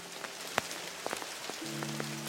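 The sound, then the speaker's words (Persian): Steady rain falling on a surface, a dense continuous patter with a few sharper drops standing out, moderately loud throughout with no voices. “خوب شد ما اومدیم ویدیو ضبط کنیم، خیلی باحال بارونه شد.”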